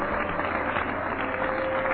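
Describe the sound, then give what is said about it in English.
A church audience claps their hands during a healing service, producing a steady, muffled wash of many overlapping claps at a faint, even level. “Clap your hands if you believe there's a healer in the house.”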